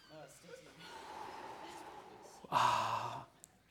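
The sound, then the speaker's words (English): A group taking a deep breath together in fresh mountain air: a loud, breathy rush of air stands out after quieter murmuring, then fades. “And how many good deep breaths did you have today of fresh mountain air? Let's take another one together.”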